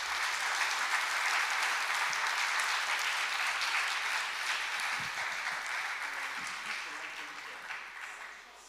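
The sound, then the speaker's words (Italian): Audience applause for a guest invited onto the stage: dense, sustained clapping from many hands that starts full and gradually fades over about nine seconds. “Vogliamo fare loro un applauso.”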